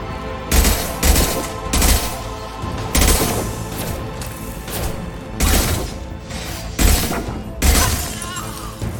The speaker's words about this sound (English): That's a lot of bullets.